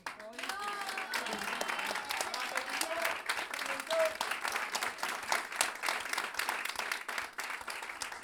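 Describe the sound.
Applause and cheering rise from an audience at a live jazz school concert, dense steady clapping sustained throughout with a few shouts and whistles mixed in.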